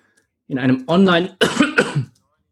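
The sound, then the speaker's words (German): A person coughs in four harsh, voiced bursts in quick succession, loud and alone. “lustig, dass ich jetzt huste”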